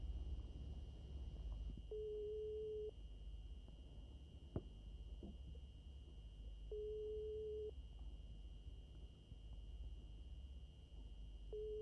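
Faint telephone line tone before a call: a steady, low-pitched tone sounds in long evenly spaced bursts with silent gaps between, two full bursts and the start of a third, over a hissy line.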